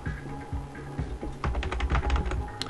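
Fast typing on a computer keyboard while entering a name for a new folder: many light, rapid key clicks in an uneven patter, growing denser toward the end.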